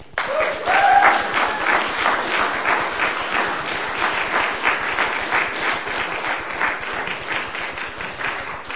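Audience applause follows a poetry reading: many hands clap in a steady, lively burst that carries on throughout, with a short whistle early on.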